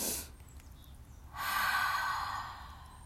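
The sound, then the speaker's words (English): Deep breathing during a love meditation: a brief breath sound, a pause, then a longer, steady, airy breath that lasts over a second before easing off. “You can close your eyes and take a deep breath.”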